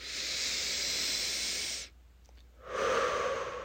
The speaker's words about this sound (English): Press. Breathe. Deeply.